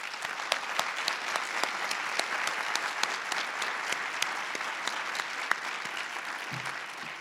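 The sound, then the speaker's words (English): An audience applauds to welcome a speaker, with sustained, even clapping from many hands and crisp individual claps standing out throughout. “Take a moment, please, to join me in welcoming Suzanne Hatfield.”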